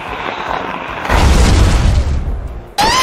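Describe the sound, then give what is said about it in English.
Video game attack effect for the ghost-type move Psycho Trick used by Mortrex: a rumbling hum swells into a booming, explosive burst, then cuts off into a sudden sharp tonal blip. “Attack. Choose a move. Psycho Trick. Ghost. Special effect point 65. Mortrex used Psycho Trick.”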